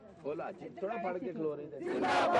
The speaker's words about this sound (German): Schluss mit der Ausbeutung, skandieren die Arbeiter und ein Hoch auf Fatima.